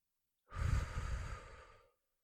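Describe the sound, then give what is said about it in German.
One long, deep breath taken during a guided breathing exercise, a soft, airy rush that swells quickly and slowly fades over more than a second, faint and alone. “Abschluss-Affirmationsatmung. Tief einatmen.”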